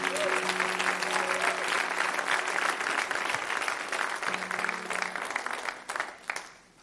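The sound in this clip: A church audience applauds to welcome a pastor, with steady, dense clapping that holds strong throughout and thins out near the end.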